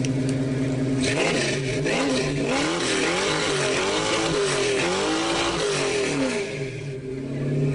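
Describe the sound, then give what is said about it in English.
Dodge Charger engine revving, a loud, dense and somewhat muffled roar that holds steady throughout, its pitch swelling up and down in repeated waves, with no voices over it. “No, it's a Dodge Charger.”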